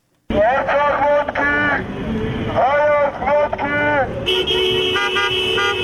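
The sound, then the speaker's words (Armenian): Car horns from a slow-moving protest motorcade in a capital city's streets: sustained, steady toots under loud talking, with a brighter horn tone near the end. “Փաշինյանի հրաժարականը պահանջող ընդդիմադիրներն այսօր էլ մայրաքաղաքի տարբեր թաղամասերում ավտոերթեր իրականացրին։ Մեքենաները դանդաղ վարելով նրանք մյուս վարորդներին, անցորդներին կոչ էին անում միանալ”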